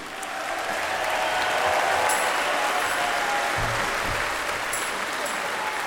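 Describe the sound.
Audience cheering and applauding for soul singer Ellis Hooks at a blues event, with steady, loud clapping throughout and a few sharp whistles cutting through the applause.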